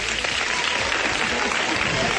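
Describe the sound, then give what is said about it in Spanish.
Studio audience applause on a Spanish television program: brisk, dense clapping from many hands, steady and moderately loud for the whole stretch. “Vamos a darle un aplauso, ¿no? Claro que sí.”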